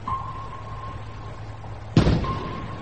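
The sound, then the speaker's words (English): A single warning shot is fired over a U-boat's conning tower. It is a sudden loud blast about two seconds in, followed by a decaying rumbling tail, over a steady low hum and a faint sustained tone. “Fire a shot over his conning tower as close as you like.”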